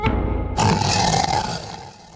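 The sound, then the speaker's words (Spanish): A tiger roars loudly and harshly, holding a rough sustained growl with a steady tonal core for about two seconds before easing slightly at the end. “De repente, se oyó un terrible rugido.”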